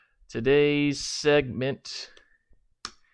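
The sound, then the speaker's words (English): A computer mouse clicks a link: one short, sharp click near the end, following a stretch of a person talking. “Hold on, I got to click on this link really quick.”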